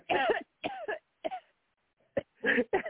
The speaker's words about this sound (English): That was weird, man. That was a dude's cough, man, for real.